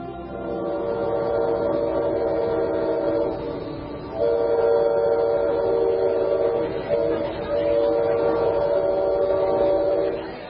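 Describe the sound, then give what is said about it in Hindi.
A train bound for Pretoria in South Africa rumbles steadily as its horn or whistle sounds in long, sustained blasts, with brief breaks between them. “ये train आपको सीधे Pretoria पहुंचा देगी।”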